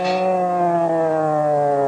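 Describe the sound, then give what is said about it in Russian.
A siren sounds in fog as one sustained, loud, harmonic wail that drifts slowly and slightly downward in pitch and holds steady throughout without pause. “Сирена”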